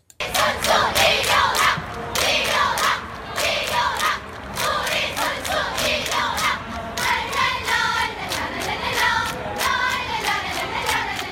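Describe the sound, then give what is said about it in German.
A North Korean cheer group at the 2018 Winter Olympics performs staged applause and chanting: many voices shout in unison over rapid, synchronized clapping, a loud, rhythmic and steady wall of sound. “Jetzt gibt es auch inszenierten Applaus. Ein Beispiel ist eine nordkoreanische Fangruppe bei den Olympischen Winterspielen 2018 und das klingt dann so.”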